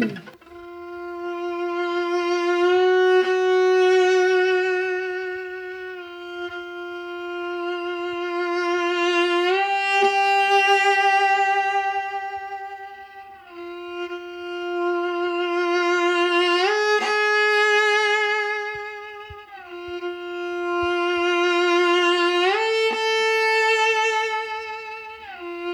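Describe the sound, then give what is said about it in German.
A bowed string instrument climbs slowly in semitone steps toward the octave. Each sustained note swells in a crescendo with growing vibrato, and quick, loose shifts glide up to the next pitch, played alone. “Was Sie jetzt gehört haben, ist eine Kombination aus Crescendo mit Vibrato-Entwicklung, Bogen im Crescendo intensiver werden und die Zielnote so anpeilen, dass man dann im letzten Moment mit einem lockeren, aus dem Gelenk geschüttelten Lagenwechsel da ankommt.”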